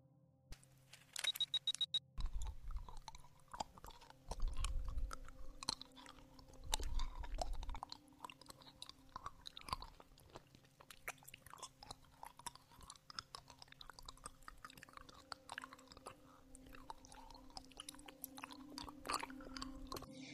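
Chewing and mouth sounds of someone eating a lollipop: many soft, irregular crunchy clicks and wet smacks continue steadily throughout, with a few louder bursts early on and no talking.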